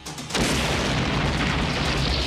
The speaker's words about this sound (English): That was a bomb?